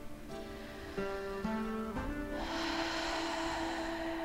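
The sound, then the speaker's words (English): Slow breathing in and out through the mouth: soft, airy breath noise that grows into a steady rush of exhaled air over a sustained, droning musical tone. “take a couple of breaths in and out through your mouth”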